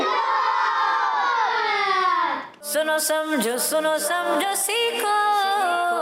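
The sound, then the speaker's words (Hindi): Children in the audience of a religious quiz show chant a slogan together. The voices form a long, drawn-out shout that slowly sinks in pitch, then break into shorter, livelier group voices. “नारा लगाना है दावत इस्लामी”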